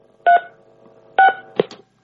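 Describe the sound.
Two clear beeps from a telephone keypad as a call is dialed, spaced about a second apart, followed by a brief, fainter blip.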